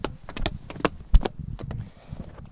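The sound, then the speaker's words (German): Footsteps walking over grass: several soft, irregular thuds, fairly quiet, with a faint voice in the background. “Und jetzt gehen wir gerade über Rasen. Das hört man, glaube ich, auch, dass wir über Rasen gehen.”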